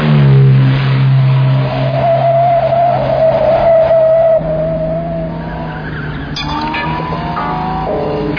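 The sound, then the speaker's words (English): A car drives fast with its engine revving loudly in a continuous drone that shifts in pitch, mixed with high whining squeals and changing harmonics throughout. “is it really necessary to drive quite so fast?”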